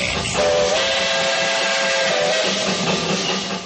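Train whistle from a train being ridden, a loud, steady, sustained tone with a hissing, steam-like edge that holds unbroken for several seconds.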